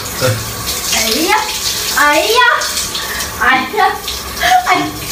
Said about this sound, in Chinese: 别着急了，一会儿马上就让你冲水了